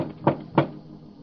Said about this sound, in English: And now let's knock on the door of the good Dr. Watson's library and see if he's expecting us.